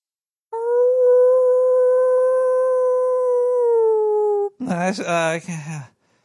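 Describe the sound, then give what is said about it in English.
A human voice imitating a wolf howl holds one steady, tonal note for about four seconds and dips slightly lower as it ends, followed by a brief burst of short voiced sounds. “I know MA is partial to wolves, so I always try to do a wolf call, but you know it doesn't always work here.”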